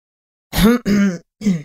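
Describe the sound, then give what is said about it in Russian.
A man gives a gruff, throat-clearing cough made of three voiced bursts in quick succession, heard alone. “Лишь кашлянул в ответ мужчина.”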